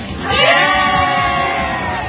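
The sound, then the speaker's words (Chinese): Cheering and shouting from a group of young guests in a radio studio at the opening of a youth talk show, loud and sustained after a brief quieter start. “欢呼声之后呢，我们就要正式的进入节目了啊”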